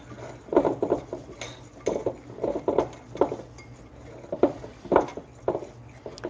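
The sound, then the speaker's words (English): Whisking blended oatmeal into cookie dough ingredients in a bowl gives repeated light clinks and scrapes of the whisk against the bowl in an irregular rhythm, moderately loud, with no talking. “now let's dump the blended oatmeal in there with the white ingredients and whisk that around.”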